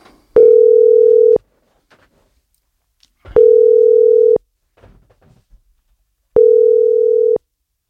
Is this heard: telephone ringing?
yes